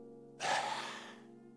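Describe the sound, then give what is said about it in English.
A voice imitates an exhausted infant's gasp before it drifts off to sleep: a single breathy intake that swells suddenly, then slowly trails off into soft airy exhalation. “the infant just says, I'm out of gas. Takes a gasp, leans its head in up against mom or dad's neck, and goes,”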